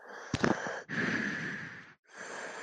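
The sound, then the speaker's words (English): A slight wheezing breath: a few drawn-out breaths with a thin, whistling edge, separated by brief pauses, with a short burst of clicks in the first breath. “And you can kind of hear a slight, like, kind of wheezing.”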